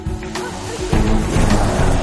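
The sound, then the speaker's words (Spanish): A car starting up and pulling away in a film scene: a low engine rumble that grows louder and fuller about halfway through, then holds steady. “Fuera, el calvo arranca su coche y se marcha.”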